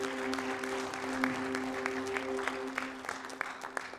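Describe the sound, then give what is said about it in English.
A church audience claps in praise during a Sunday service, a dense and steady applause with sharper individual claps standing out over a sustained low tone throughout. “Give the Lord a hand of praise.”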